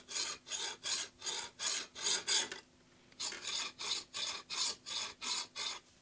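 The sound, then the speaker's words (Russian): A hand file rasps as it sharpens an ice skate blade held between the knees. Seven even strokes are followed by a brief pause, then eight more strokes in the same steady rhythm. “Зажал между коленей конек, затачивает его напильником.”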